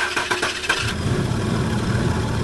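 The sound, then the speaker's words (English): An old car engine sputters as it starts: a burst of uneven, rough cranking pulses, then a steady low idle that hums evenly to the end. “Do you have a car that sounds like this?”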